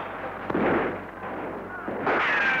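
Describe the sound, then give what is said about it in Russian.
Mortar fire during a cavalry battle, heard as a few dull, booming blasts with broad noisy rumble, one early and another near the end, with no one talking. “Наши минометы. Обидно будет, если своих накроют.”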